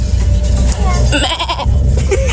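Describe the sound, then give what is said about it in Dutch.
A person imitates a goat's bleat with a quavering, wavering cry that lasts about a second, set over a steady low rumble. “wist ik dus al dat ik heel erg goed een geit na kan doen. Nou, hier is mijn geit.”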